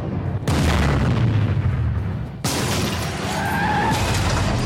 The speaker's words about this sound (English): I'm gonna mess you up. What kind of gun is that?